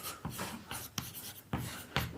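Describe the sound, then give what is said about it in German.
Writing on a board gives faint, scratchy strokes in short bursts, each stroke a brief rasp with small sharp taps between them. “jetzt benutzen wir diese tolle Tafel doch einfach mal, wenn Sie zum Beispiel einfach schreiben, A0, Map und dann machen Sie es wieder zu.”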